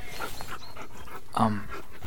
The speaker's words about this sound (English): Your dog has three heads.